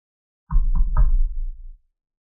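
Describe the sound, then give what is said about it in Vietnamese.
Three quick, evenly spaced knocks on a door that already stands open, each a firm, resonant thud, the last one ringing out briefly before fading to silence. “Cánh cửa đã mở sẵn, ông vẫn gõ 3 tiếng.”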